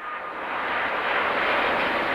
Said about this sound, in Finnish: Dubain lentoaseman kiitotielle laskeutuu lähes jonossa Airbusin uusia superjumpoja.